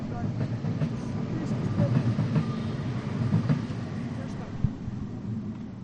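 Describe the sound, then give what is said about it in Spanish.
A passing train rumbles in a steady, heavy low roar that lasts the whole stretch, with faint rattling on top and people's voices faintly beneath it. “Ahora pasa el tren. Mira.”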